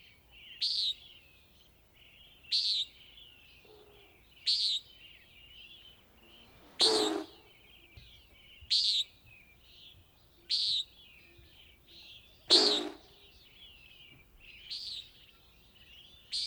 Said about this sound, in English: Which is a common nighthawk, although it is a bird of dawn and dusk, and it is not related to hawks.